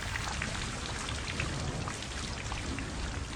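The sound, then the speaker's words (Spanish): Water from a shower in a home bathroom runs as a steady, even hiss of spray, constant from start to finish with no voices. “se sumerge bajo la lluvia en su propia casa. El agua de la ducha hace que el día brille con luz propia.”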